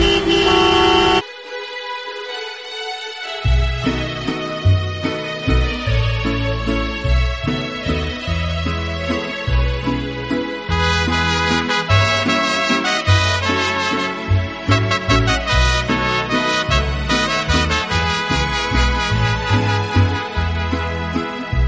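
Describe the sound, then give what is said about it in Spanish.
Car horns honking in a traffic jam: one short blast, a brief pause, then many horns of different pitches overlapping in a loud, continuous din. “Si lo que tienes delante es la matrícula de otro coche, es porque estás en el atasco.”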